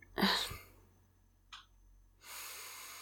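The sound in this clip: A deep breath taken to calm down: a strong airy breath at the start, a brief soft breath sound midway, then a long, steady rush of breath at the end. No talking.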